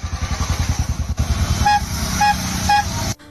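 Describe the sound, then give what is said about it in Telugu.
Auto rickshaw arriving with its small engine putting in a fast, choppy low putter, then running smoother while short high horn toots beep three times before the motor cuts off abruptly. “Auto వచ్చింది నాన్న.”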